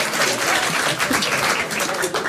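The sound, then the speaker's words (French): Audience applause: a thick, continuous wash of many hands clapping, steady and loud throughout with no clear gaps. “C'est des applaudissements.”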